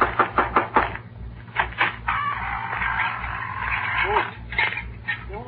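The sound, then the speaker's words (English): Knocking on a door: a quick run of sharp raps at the start, then people talking, with a few more scattered knocks later. “I better knock on the door.”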